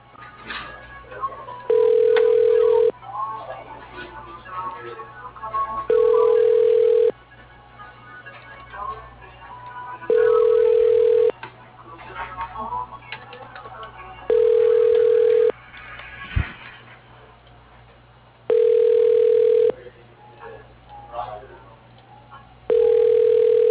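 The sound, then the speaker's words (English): A telephone rings repeatedly while a call is transferred, with six evenly spaced ringback tones at a steady pitch over a muffled, busy phone-line background. “And your call is being transferred.”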